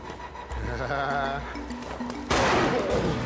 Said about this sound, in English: Mac shoots Jarvis in the chest and the head, then turns the gun on himself.